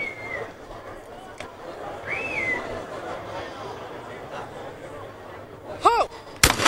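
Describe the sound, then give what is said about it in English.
A gunshot rings out in the Rio 2016 Olympic shooting gold-medal match between an Australian and a New Zealand shooter. A single sharp, loud crack comes near the end, after a stretch of commentary speech. “Last shot then, 11-10 to Skinner. This shot, if she makes it, the Australian takes Olympic gold.”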